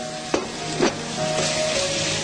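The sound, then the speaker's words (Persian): Onion and meat sizzle as they fry in a pan, a steady hiss with two sharp stirring scrapes early on. “ما کمی که پیازمون رو تفت دادیم، احتیاج نیستش که پیاز کاملا سرخ بشه، همین در حدی که نرم بشه کافیه. من گوشتماش اضافه میکنم.”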